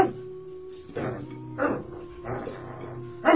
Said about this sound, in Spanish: ¡Oiga! ¡Su perro me va a matar una gallina!